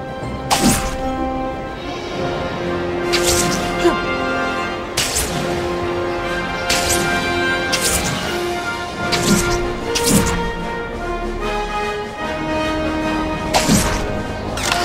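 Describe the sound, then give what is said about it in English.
Spider-Man web-swings repeatedly past a photo target in the 2002 Spider-Man video game, producing many sharp whooshing thwacks at an irregular pace over a steady background score. “That target I set up should do the trick. I'll just lock onto it and swing past it a couple of times.”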